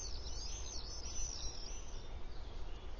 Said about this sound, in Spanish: Los vencejos solo se quedan 3 meses. Luego se recuperan para prepararse para volar hacia África y llenar el aire por última vez con sus típicas llamadas.